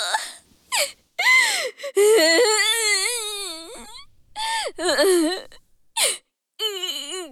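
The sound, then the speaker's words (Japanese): A girl cries in loud, wavering wails and whimpers, several sobbing bursts with sliding pitch separated by brief gasping pauses. “あら、また泣いちゃった。”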